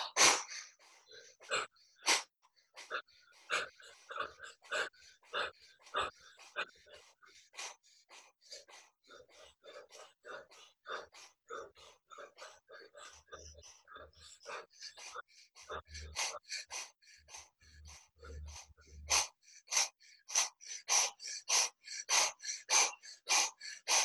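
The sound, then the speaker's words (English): Forceful breaths drawn through the nose during a guided breathing exercise, many short, sharp, rhythmic puffs repeating steadily throughout, with no speech. “Deep breath in through the nose. Hold.”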